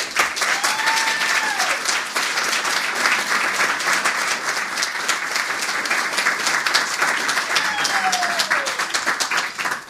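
Audience applause welcomes a reader to the stage at a reading event. The clapping is dense and steady for about ten seconds, with a couple of brief whistles near the start and end.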